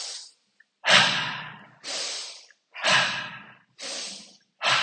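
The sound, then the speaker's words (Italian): Forceful breaths drawn through the nose during a guided breathing exercise: a quick, regular series of loud, rushing, snorting airflow bursts, each separated by a brief silent pause. “E praticamente per 28 si ispira dal naso”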